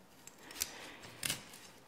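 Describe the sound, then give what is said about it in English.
Soft, crisp cutting snips as broccoli is cut into bite-sized pieces for a veggie pasta, two brief faint snips over quiet background hiss, with no talking. “And cutting it into bites. Sizes.”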